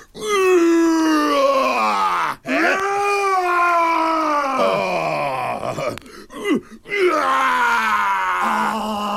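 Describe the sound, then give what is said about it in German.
A person roaring: a few long, loud, throaty vocal roars with strong harmonics, each drawn out and separated by short breaks, the pitch sagging across the longer calls. “Das ist ein schönes Brüllen. Nochmal.”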